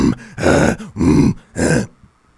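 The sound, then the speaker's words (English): A man's voice imitates the grunting and growling of someone straining through muscle-ups: three loud, rough, guttural bursts with short gaps between them, then quiet. “he started grunting and growling while doing the muscle-ups. Like, we'd do a muscle-up and go,”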